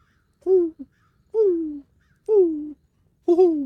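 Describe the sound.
A human voice imitates an owl hooting with four drawn-out hoots, each sliding down in pitch and evenly spaced, plus a brief extra note after the first.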